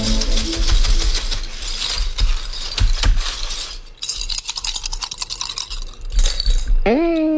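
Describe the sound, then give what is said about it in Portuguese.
Bottle caps thrown down for a fortune reading, producing dense rattling and clattering with many sharp clicks that keep going. “joga as tampinhas pra mim”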